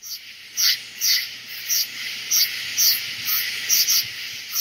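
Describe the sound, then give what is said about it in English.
Crickets and other insects on a southern summer night: a shrill high chirping in many short, regular bursts over a faint, steady insect drone. “Here's a little southern summer night to get us in the mood for night and darkness.”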